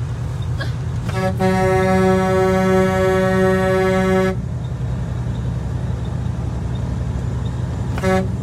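A vehicle horn honks during the 2022 Canadian convoy, sounding one loud, steady blast of about three seconds with brief toots before and after, over a continuous low engine rumble.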